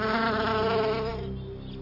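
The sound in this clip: A bee buzzes in a steady, droning hum rich in overtones. It holds level, then dips slightly and thins toward the end. No voices.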